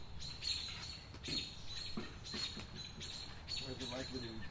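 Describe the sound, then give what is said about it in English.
American robins giving alarm calls at an owl: sharp, repeated chirps and squawks burst out in quick succession, fairly faint against a steady background hiss. “we're hearing a whole lot of songbird. The local robins are pissed off. At something.”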